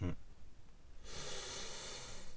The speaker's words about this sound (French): Je trouve que je respire hyper fort.